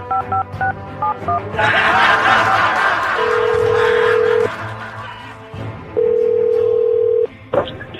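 A telephone number is dialed, and a quick run of short touch-tone beeps opens the sequence. Two long, steady ringing tones follow, separated by a pause, over a noisy background.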